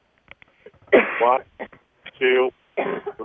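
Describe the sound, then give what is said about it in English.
A person coughs harshly and clears their throat during an exercise session, with about three loud bursts separated by quiet gaps and faint breathy sounds. “Oh, wow, really coughing with that one, sorry.”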